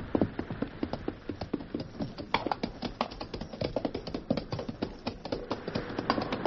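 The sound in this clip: Horses' hooves clatter as riders ride into a cave, a rapid, irregular stream of many sharp clops of varying loudness, with no voices.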